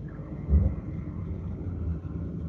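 Low engine rumble as a car is driven: a steady, muffled drone with one brief louder surge near the start, then an even, fairly quiet hum.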